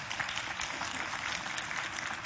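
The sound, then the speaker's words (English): Faint, sparse clapping from a church audience makes a steady, thin patter of hand claps with no clear breaks. “now I do notice that the clapping's real sparse on this, but you're hearing it, whether you believe it or not”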